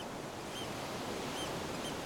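Ocean waves washing onto a beach as the tide comes in: a soft, continuous hiss of surf at low level, steady and unbroken, with no voices.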